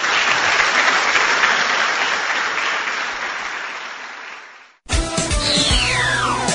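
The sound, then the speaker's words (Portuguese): Audience applause at a church service rises as a dense wash of clapping, then slowly fades away. It cuts off abruptly and a different, tonal sound follows. “Vamos aplaudir o nosso Senhor.”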